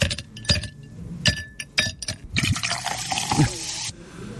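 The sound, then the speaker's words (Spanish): Ice clinks in a glass as a drink is poured in: several sharp, bright clinks, then a rushing splash of liquid that stops abruptly. “Ay, hielito Dios. En el vaso, la bebida entrando”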